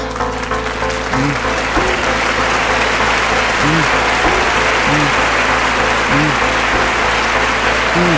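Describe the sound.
Audience cheering and applause swell into a dense, steady roar that holds at an even, loud level throughout, with voices calling out over it.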